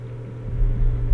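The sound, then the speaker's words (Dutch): Deep engine rumble of a police water cannon truck driving along a street near a burning barricade. The sound stays low and steady and grows louder over the second half. “de waterwerper rijdt door”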